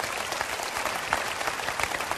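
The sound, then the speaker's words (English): Audience applause after a talk about a 40-year marriage: dense, steady clapping from many hands that fills the whole stretch at an even level, with no voices standing out. “Believe me, you're clapping more for Brenda's patience than you are for me.”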